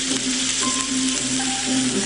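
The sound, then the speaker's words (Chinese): Goby fish braising in a pre-mixed sauce gives a continuous bubbling sizzle. The hiss holds steady and fairly loud throughout, with no break or obvious change in intensity. “用提前调好的料汁来红烧，烧到鱼肉将烂不烂的时候出锅装盘”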